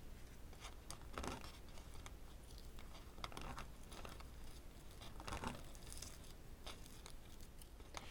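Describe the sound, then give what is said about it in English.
A Stick and Burn transfer sheet is peeled off a gourd, giving a few faint, papery crackling bursts over a quiet, steady hiss. “Okay, once that's done, I'm going to go ahead and peel off my stick and burn.”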